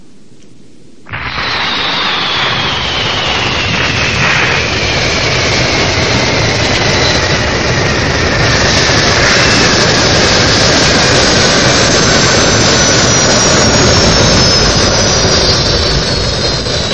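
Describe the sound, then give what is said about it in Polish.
Spaceship landing in Dragon Ball Z: after a second of quiet background, a loud roaring rumble bursts in, and a high whine glides slowly downward in pitch while the roar holds strong to the end. “Spójrz w niebo. To jakiś statek kosmiczny. Wylądował.”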